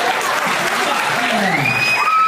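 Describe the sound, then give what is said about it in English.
Applause at a gathering, honoring a set of handmade name tags: dense, steady clapping runs the whole time at an even loudness, with voices mixed into the clatter. “I have a round of applause for all these amazing fucking name tags you guys did.”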